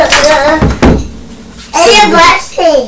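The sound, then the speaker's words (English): A letterbox flap bangs shut after post is pushed through, a sharp clack amid people talking. “Somebody put something through the letterbox and it banged, didn't it? Yes. It banged shut.”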